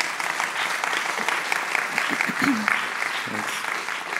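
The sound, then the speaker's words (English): Audience applause welcoming two novelists at a literary talk: dense, steady clapping from a crowd that holds at an even level throughout. “But for now, please join me in making Emily Bitto and Miles Allinson very welcome.”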